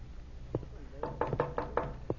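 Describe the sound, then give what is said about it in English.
Several sharp knocks at a door come in an uneven run, most bunched in the second half, with faint voices murmuring underneath. “he's coming in. Oh, dear. Answer the door, Freddy”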